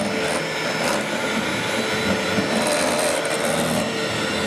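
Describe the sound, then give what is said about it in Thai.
An electric egg beater mixing, with a loud, continuous whirring motor drone and a hissing texture that holds steady without pauses throughout. “อันนี้จะเป็นเครื่องตีไข่เครื่องตีไข่นะ”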